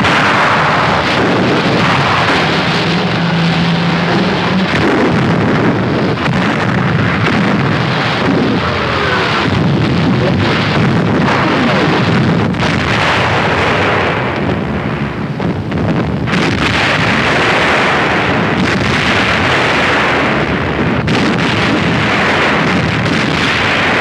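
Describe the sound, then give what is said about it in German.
German battleships' heavy guns opening fire on the British aircraft carrier Glorious: a continuous loud, roaring rumble of booming blasts blended with wind-like noise, without clearly separated shots. “Unsere Schlachtschiffe eröffnen das Feuer auf die wertvolle Beute.”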